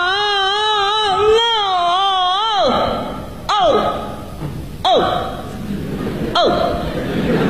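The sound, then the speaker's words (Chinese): A voice imitates the crying of an old-man role in Peking opera: a long, wavering, quavering wail, then three short sobbing cries, each starting sharply and sliding down in pitch. “你比如说这个京剧里的老生， 嗯， 和老生一哭又好看又好听， 什么样啊？ 一哭起来这样， 您给学一学。”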